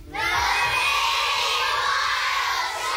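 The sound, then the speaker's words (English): Many children in a TV studio shout and cheer at the start of a natural history programme made in Bristol. After a brief quieter moment, a loud, sustained wall of high, excited voices holds to the end. “And as you've heard, we've got lots of children from the Bristol area”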